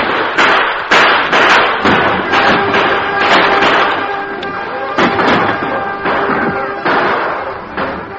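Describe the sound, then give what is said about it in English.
Gunfire in a radio western drama as outlaws in a gully shoot at troopers guarding wagons: many sharp, loud bangs at irregular intervals, some close together, with thudding echoes between them. “for a few moments they continued to fire at the troopers”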